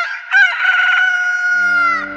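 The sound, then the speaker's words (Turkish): A rooster in Istanbul crows once: a single loud, sustained cock-a-doodle-doo of about two seconds, with a sharp start and a drawn-out, slightly falling tail. “Ahali horoz ötüyor diye fısıldadı ve sustu.”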